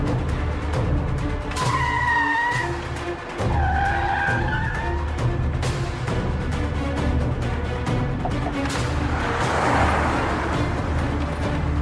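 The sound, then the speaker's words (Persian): Tires squeal as a car skids to a stop on a quiet street, with two shrill screeching bursts early on over steady road and engine rumble. “فرهاد ماشین رو نگه میداره. همگی از ماشین پیاده میشن.”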